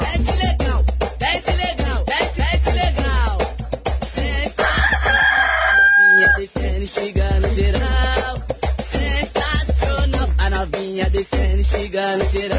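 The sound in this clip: A rooster crows amid loud, pounding funk music with a heavy, driving beat, the crow rising out of the dense mix partway through before the music carries on without pause.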